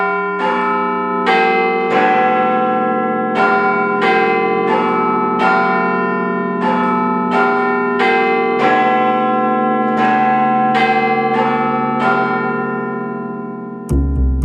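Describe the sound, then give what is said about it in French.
Large clock tower bells in London, said to reach 120 decibels, chiming in a long sequence of many loud, resonant strikes at a measured pace, each ringing into the next, before ending abruptly with a low thud. “la sonnerie aurait pu être maintenue 4 fois par heure pendant la rénovation de la tour, mais on a pensé aux oreilles des ouvriers. Parce que ce n'est pas terrible pour soigner son audition de se prendre en pleine poire les 120 décibels de Big Ben.”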